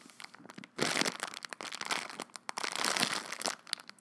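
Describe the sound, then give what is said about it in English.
Crinkly, crackling rustle of a plastic bag of dry rotini pasta being squeezed, many dense snapping crunches in bursts, loud and close with no talking. “Ooh, ASMR of... Yeah. This is a pasta squeeze number 4.”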